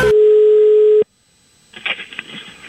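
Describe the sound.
A telephone dial tone sounds as a call is placed, a loud, steady, single-pitched hum lasting about a second before it cuts off abruptly, followed by near silence and then faint clicks and rustling.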